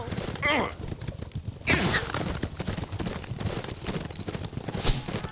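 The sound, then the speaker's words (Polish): Galloping horse hooves during a horseback escape in a video game. Rapid rhythmic beats sit under a dense, noisy mix of game sounds with voices. “Przeszliśmy to taki bardzo zręcznościowy segment. Ucieczka konno po prostu.”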